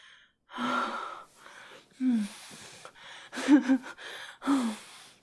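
Heavy, gasping breaths from someone catching their breath after exertion. They come in several ragged bursts, some with a voiced, strained edge, separated by short quiet gaps.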